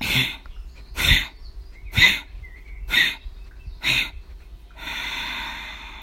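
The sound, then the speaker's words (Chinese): Forceful breaths during a lying-down breathing exercise: five short, sharp nasal bursts about a second apart, followed by a longer, steady exhale that hisses on to the end. “吐气。”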